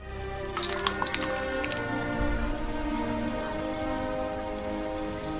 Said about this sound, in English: She turns to the window. Outside, it begins to rain.